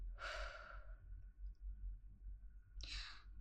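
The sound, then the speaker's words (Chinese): Deep breathing in and out, done slowly and calmly: a soft, airy breath lasting under a second, then after a long pause a second, shorter breath, both faint over a low background hum. “深呼吸，吸气，吐气，吸气，吐气。”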